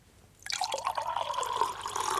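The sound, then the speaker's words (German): Water pouring, a continuous splashing and trickling liquid sound that starts after a brief quiet moment and runs steadily to the end, fairly loud and heard alone. “Wasser?”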